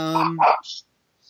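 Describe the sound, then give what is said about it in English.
A small temple dog lets out a quick burst of a few short, sharp yapping barks, loud at the start and then breaking off into silence. “I have a little temple dog having a moment here.”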